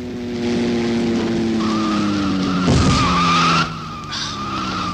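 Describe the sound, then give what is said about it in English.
Tires screech as a car skids on a road, a sustained high squeal rising over a loud, droning engine roar, with a harsher burst in the middle before the squeal fades and the engine continues. “Look out, Adam, that car!”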